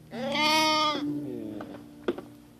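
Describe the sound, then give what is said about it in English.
Young lamb, about a month old, gives one loud, quavering bleat lasting nearly a second, followed by fainter low sounds and a couple of soft knocks. “Very active, these lambs”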